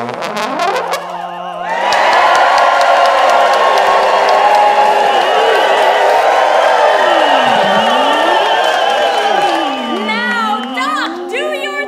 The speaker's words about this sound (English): Timmons, reconstitute the Sandbox Radio Live audience into this office terrarium now. Reconstituting audience.